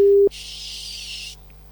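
A telephone line tone sounds while placing a call. A short, steady mid-pitched beep cuts off after a quarter second, then a band of hiss runs for about a second before the line goes quiet.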